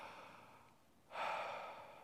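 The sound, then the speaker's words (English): A deep breath drawn in, heard as a single soft, airy inhale that swells suddenly and lasts under a second, quiet and alone. “Take a deep breath right now.”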